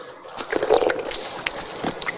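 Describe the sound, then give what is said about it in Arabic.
Water splashes and squishes as a hand scoops water and washes the face during ablution, making several wet smacks and drips in a busy, fairly loud run with no talking. “هكذا أخذت الماء بيدي ثم غسلت وجهي، أعيدها مرة ثانية، أو هي ثلاث مرات في الأصل، هذه الثانية، هذه الثالثة”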